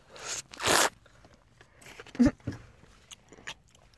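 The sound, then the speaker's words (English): A backpack zipper being opened: a couple of quick, rasping pulls near the start, followed by a few faint, scattered clicks and rustles. “I pulled her little poster out of my backpack and handed it to Fen.”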